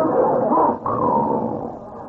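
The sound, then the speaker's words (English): A gentle pet dog gives a steady, low, growl-like vocal rumble that holds for about two seconds, broken once by a brief dip partway through, fairly loud and without human voices. “What's that? Oh, that's just our dog. He's very gentle.”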